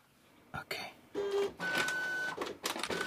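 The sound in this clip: A printer prints a holiday photo, with whirring mechanical runs broken by clicks and short feed strokes, plus a faint tonal hum, repeating over about three seconds.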